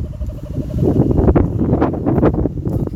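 Wind blowing outdoors at Nightcliff, buffeting the microphone with a dense, low roaring rumble that surges and eases in gusts throughout.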